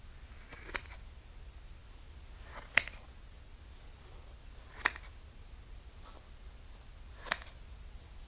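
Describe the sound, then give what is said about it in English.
Scissors cut through the clothing of a person strapped down: three crisp, separate snips spaced a couple of seconds apart, standing out over a faint, steady background hiss. “Since the subject is strapped down, the clothing of the subject will be cut and thus destroyed.”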